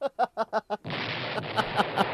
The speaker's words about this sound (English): Oh, you have another explosion for me, too. Yeah, I have two for you, yeah.